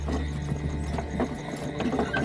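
Hooves clip-clopping as a coachman drives off a horse-drawn carriage, a dense, steady patter of hoof beats over a continuous low rumble, moderately loud throughout.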